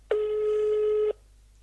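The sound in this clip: A telephone tone sounds as a call is placed: a single steady, mid-pitched electronic beep lasting about a second, then silence.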